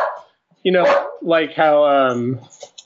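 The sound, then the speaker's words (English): A pet dog at home lets out a few loud, tonal barks and yips in quick succession, with wavering pitch between bursts. “sorry, that's our dog.”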